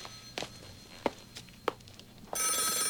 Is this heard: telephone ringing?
yes